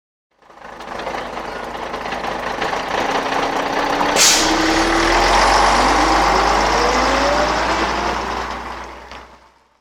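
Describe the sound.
A bus engine rumbles and builds, with a brief sharp air-brake hiss partway through. The engine pitch then climbs steadily before the sound fades out at the end.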